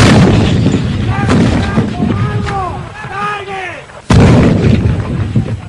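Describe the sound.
Artillery fire in a war: shouting voices come first, then one abrupt, very loud blast near the end. A heavy rumble lingers after the blast.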